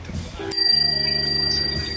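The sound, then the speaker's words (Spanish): A small bell is struck once and rings out with a bright, clear tone that hangs and slowly fades, after a moment of quiet low rumble. “tené la campana lista. la campanita. Me gusta más esta.”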